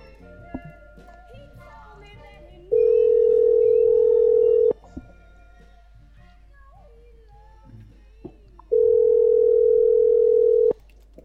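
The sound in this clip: Ringback tone of an outgoing telephone call: two long, steady, loud tones, each about two seconds, separated by a gap of roughly four seconds in which faint voices are heard.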